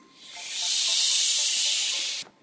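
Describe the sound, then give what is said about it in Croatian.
A voice imitates a hissing, rustling noise with a single long, breathy shh that swells in, holds steady for over a second and a half, then cuts off abruptly. “Glas može fučkati. Glas može pjevati. La la la. Može šumiti.”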